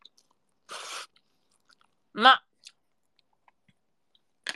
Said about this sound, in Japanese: まあでもそばはうまい。